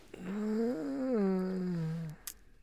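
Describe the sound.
A weird, drawn-out vocal groan, given in reply to a question about how exciting the Circuit de Catalunya race track is. It lasts about two seconds at a low, wavering pitch that bumps up briefly, then sags toward the end, followed by a short click.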